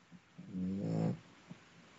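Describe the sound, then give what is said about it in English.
A pet snoring: one soft, low, rasping breath lasting about half a second, with faint sniffs just before and after, alone and quiet. “Yes, Lucy is still snoring.”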